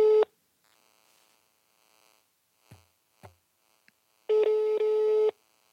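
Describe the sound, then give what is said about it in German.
German ringback tone heard while placing a call: a steady mid-pitched electronic tone. The tail of one tone sounds at the start, then a full one-second tone follows a long quiet gap with a few faint soft noises. “Ich rufe ihn trotzdem an.”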